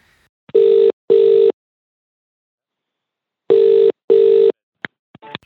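The ringback tone of an outgoing phone call plays as two double rings, each a steady mid-pitched buzz, with a long silent gap between them. A few short clicks follow at the end.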